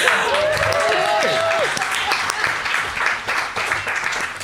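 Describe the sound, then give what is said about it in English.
An audience in an Italian restaurant gives a round of applause during a live show. The clapping is steady and full throughout, and a voice is heard over it near the start. “Okay, can I get a round of applause?”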